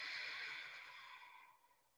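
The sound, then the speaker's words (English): A deep, raspy exhale from ocean-style breathing: one long, airy breath out, strongest at the start and fading steadily over about two seconds, with no talking. “You can kind of hear that deep exhale. It almost sounds like a heavy sigh.”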